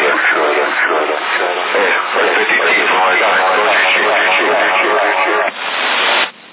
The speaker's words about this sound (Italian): È un bel eco, però è sempre la solita cosa. È un bellissimo eco.